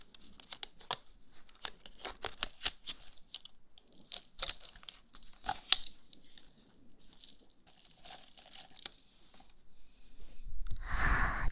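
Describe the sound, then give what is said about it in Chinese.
Green milk-crisp balls being eaten, many sharp, crackly crunches and crinkles in an uneven rhythm, ending in a louder, denser burst of rustling noise. “下面来尝一下你喜欢的鲜绿奶酥球”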